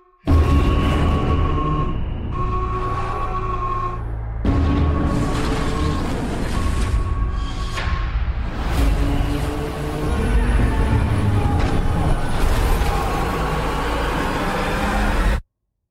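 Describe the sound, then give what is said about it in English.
Booms and cinematic effects from the Pacific Rim: Uprising movie trailer form a loud, dense, continuous wall of rumbling impacts and sustained tones, with brief dips between heavy hits. “Why don't we play the trailer? We're gonna take a break, and when we come back, we're gonna get into a complete spoiler filled discussion for Pacific Rim Uprising.”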